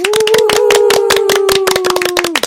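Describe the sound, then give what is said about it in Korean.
Quick, rhythmic clapping in unison from a studio audience at a classical and Korean traditional music event, loud and evenly paced, over a steady sustained tone. “저희 그 하나 둘 셋 하면 박수로 한번 시작해 볼까요? 하나 둘 셋.”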